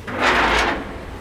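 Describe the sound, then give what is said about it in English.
A heavy steel door, shaped like a submarine hatch, is pulled open with one broad, scraping rush that swells and then fades over about a second. It is loud, with no talk. “Visitors today can freely enter and leave via its 2 steel doors. So I think this first door I can handle.”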